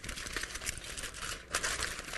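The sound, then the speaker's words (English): Aluminium foil being crumpled and shaped into a little creature: a soft, continuous crinkling rustle with a few sharper crackles, quiet and alone. “I've got some foil here. And if I decide to make this foil into a little creature,”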